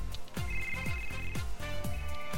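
A telephone ringing for an incoming call, an electronic ringtone repeating in quick, evenly spaced bursts at a moderate level, with no voices over it.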